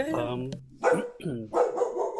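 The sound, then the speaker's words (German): A dog barks in a studio at the end of an interview. A few short, fairly faint barks are mixed with voices talking. “Jetzt tut der Hund bellen”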